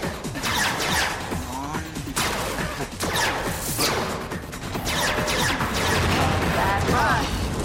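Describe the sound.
Crash effects from a large screen video game at a space center, with loud, dense whooshes and several sharp impacts layered over continuous busy game noise.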